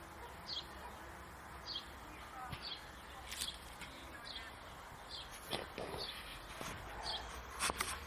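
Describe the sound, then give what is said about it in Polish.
Birds singing outdoors on a fine day: faint, high chirps repeat every second or so over a steady low hiss, with a few slightly louder notes near the end. “Jest dzisiaj wspaniała pogoda. Ptaki śpiewają.”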